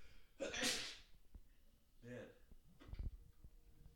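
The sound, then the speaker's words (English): A single sharp, breathy sneeze bursts out near the start. Quieter voices talk afterward. “Oh, bless you”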